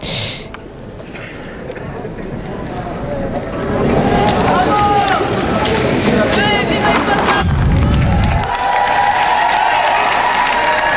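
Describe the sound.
Crowd of young people waving Holy See flags cheers the Pope during his visit to France, a loud, sustained roar of massed shouting voices that swells after the first few seconds and holds steady.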